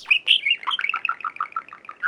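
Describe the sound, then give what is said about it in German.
A small bird chirps on a primary school's fire escape: a quick run of many bright, high notes that step down in pitch at the start and then settle into an even series of similar chirps, alone. “Piepmatz weg. Oh. Charlie fliegt weiter auf die Feuerleiter der Grundschule Tadenstraße.”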